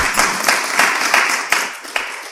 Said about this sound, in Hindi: Very good, तालियां बजाओ सब इसके।